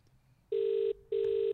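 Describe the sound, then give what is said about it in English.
A telephone rings while a call is being placed: two steady, evenly pitched ring tones of equal length, separated by a short gap, heard alone and fairly loud. “See if we get him on the line. Better not go to voicemail.”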